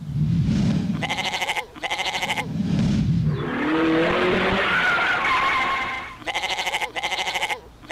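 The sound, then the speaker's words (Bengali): Bleating from an escaped goat running loose after a goat fight, the loud bleats alternating with rapid pulsing bursts and a long screeching, skid-like swell in the middle. “আরে আরে ধরো ধরো ধরো, ছাগল পালিয়েছে, বাবলুর ছাগল পালিয়েছে।”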